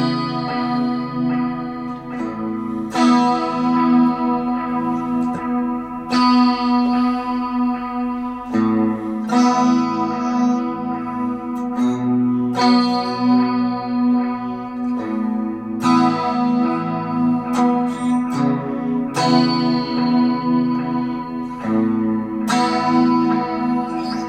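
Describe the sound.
An electric guitar played through a delay pedal lets open strings ring in loud, sustained chords that change every few seconds. Each note trails off in echoing repeats that overlap into a continuous shimmering wash.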